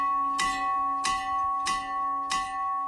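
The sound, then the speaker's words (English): Four evenly spaced, loud strokes from an old 1900 schoolhouse bell now used as a boys' summer camp dinner bell, each strike bright and metallic, with a sustained resonant hum ringing between hits. “Boys Camp procured this bell after years of being ridiculed for its pathetic dinner bell.”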